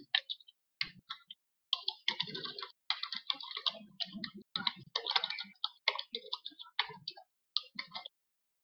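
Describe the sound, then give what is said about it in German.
Fingers type a note into a Trello card on a computer keyboard. Quick bursts of crisp clicking keystrokes are broken by short pauses, with no talk over them. “schreibe mal einfach ähm, ins Trello, in die Trello-Karte dann rein, dass der Masch auch interessiert ist.”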